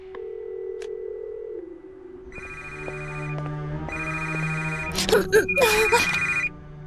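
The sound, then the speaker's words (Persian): Telephone ringback on an outgoing call: a steady tone, then two long ringing tones with a pause between, followed by a voice speaking. “به هر حال بهش زنگ میزنم.”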